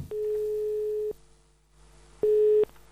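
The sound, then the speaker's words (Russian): An outgoing telephone call gives its line tones: a long steady mid-pitched beep, a short pause, then a shorter beep of the same pitch, with no talk. “Сейчас я позвоню Мише и постараюсь ему разъяснить, в чем здесь состоит чудо, а вы послушайте.”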